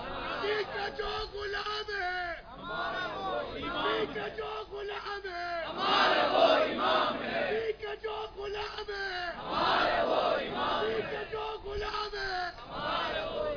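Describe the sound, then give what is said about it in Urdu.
A large crowd chants "Subhan Allah" loudly in repeated rhythmic bursts of many voices, rising and falling in waves with brief gaps between the shouts. “زور سے کہو سبحان اللہ اور زور سے آخر تک مجمع کہے سبحان اللہ سبحان اللہ.”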